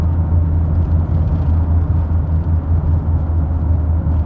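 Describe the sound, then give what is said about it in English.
Road noise inside a moving car: a steady, loud low rumble of engine and tyres that continues evenly throughout, with no voices. “I'm driving and I'm trying to be safe and not be a complete idiot behind the wheel.”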